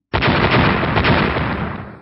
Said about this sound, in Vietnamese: Một tiếng nổ cực lớn chấn động thiên địa truyền ra